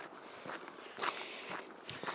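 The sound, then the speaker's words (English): Footsteps of a person walking outdoors over ground after rain, a few soft, evenly spaced steps, very faint and alone. “I'm walking towards Kiwi Hill. Well, facing towards Kiwi Hill, walking towards it.”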